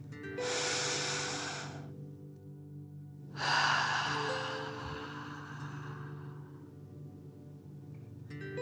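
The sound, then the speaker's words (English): Deep breathing in a breathing exercise: one long hissing inhale through the nose, a pause, then a longer, forceful exhale out of the mouth that slowly fades, over a low steady hum. “Breathing in through your nose and breathing fire out of your mouth. Again, deep breath in and out.”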